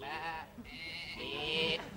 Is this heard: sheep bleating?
yes